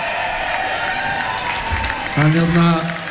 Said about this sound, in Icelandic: gefa hann góða klapp